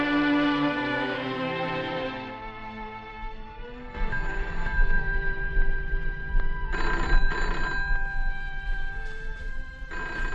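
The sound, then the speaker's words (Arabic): A telephone bell rings in a dramatized household scene, a loud, continuous jangling ring that follows a short passage of music, with no voices over it. “انا اللي هرد على التليفون”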